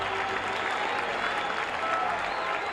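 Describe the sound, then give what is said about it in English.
A ballpark crowd at a baseball game cheers and applauds a pitcher's 3,000th career strikeout, a steady, loud wash of clapping and crowd noise that holds without pause throughout. “Listen to the crowd.”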